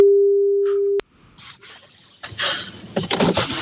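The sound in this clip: A single steady ringback tone sounds on the line while a phone call is placed. It holds at an even pitch for about a second, then cuts off abruptly into faint rustling and busier background noise.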